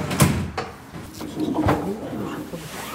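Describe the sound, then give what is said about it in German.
The tailgate of a Munich funeral home's car is opened, giving a few sharp knocks and clunks with softer rattling and shuffling between them, moderately loud. “Die Heckklappe eines Wagens des Münchner Bestattungsunternehmens Akimi Urawa wird geöffnet, ein schlichter, dunkelbrauner Sarg ausgezogen.”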